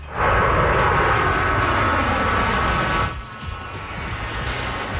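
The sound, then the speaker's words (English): Loud jet roar from CT-114 Tutor jets of a military air demonstration squadron doing a flyover: a broad rushing engine noise with a falling whine, dropping abruptly in level partway through, then continuing softer. “That is the sound of the iconic CT-114 Tudor jets doing a flyover.”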